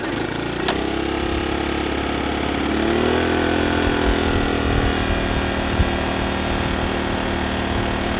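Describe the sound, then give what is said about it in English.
A small 19-pound portable generator starting on choke, its engine picking up speed and then settling into a steady, buzzing mid-pitched drone that runs on alone. “Nice thing about this generator is it weighs 19 pounds. Wow. Give the bulb a quick squeeze, put it in choke.”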